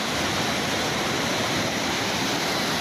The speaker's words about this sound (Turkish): Gece bastıran yağmur sabah sele dönüştü. Dereden taşan su sanayi sitesini bastı.